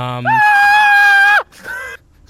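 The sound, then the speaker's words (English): A long, high, strained scream from a man falling from a very high wall in a tabletop adventure, held for about a second, then a shorter second cry. “He's screaming.”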